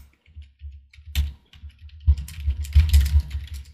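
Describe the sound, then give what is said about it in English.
Two people type feverishly on computer keyboards, producing many soft clicks and taps in an irregular stream that grows denser and busier in the second half. “As we both type feverishly.”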